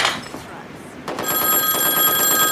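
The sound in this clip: A telephone in a film scene rings with a bright, trilling metallic bell. The ringing starts about a second in and continues steadily to the end over low background noise.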